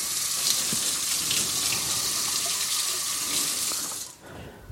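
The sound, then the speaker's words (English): Water runs from a tap as oil is washed off hands, a steady hissing gush that carries on unbroken and drops away near the end. “I'm going to wash the oil off my hands.”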